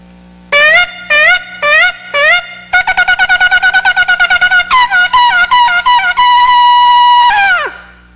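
A shofar sounds alone and loud: a few separate blasts, then a rapid run of many short staccato notes, ending in a long sustained blast that drops in pitch as it cuts off.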